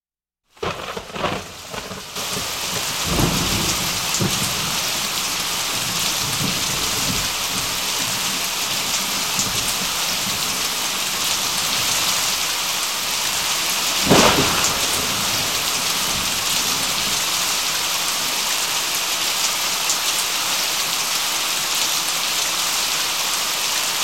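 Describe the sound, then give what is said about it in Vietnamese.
Heavy rain pours down steadily from a sudden storm. A constant dense hiss runs throughout, with a low thunder rumble early on and a sharp thunderclap near the middle. “mây đen bỗng từ đâu kéo đến, một chốc mưa đổ xuống và kéo dài mãi không ngớt.”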